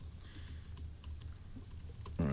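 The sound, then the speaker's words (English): Typing on a computer keyboard: many quick, faint keystrokes in an uneven rhythm. “Let me just type it in and see.”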